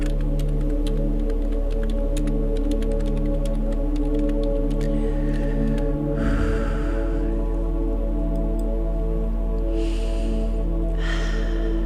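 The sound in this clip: Slow, deep breathing in and out, with a couple of soft, airy breaths rising over a steady, sustained droning musical tone.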